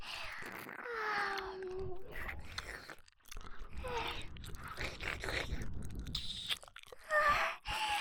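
Food is bitten and chewed with crunchy, wet mouth sounds in many irregular bursts, mixed with brief voiced murmurs and moans.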